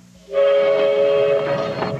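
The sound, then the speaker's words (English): A luxury passenger train sounds its whistle, a steady, loud multi-tone chord that starts abruptly after a moment and holds for the rest of the short clip. “Venice Simplon Orient Express. Naturally, the most luxurious train in the world serves the richest coffee in the world.”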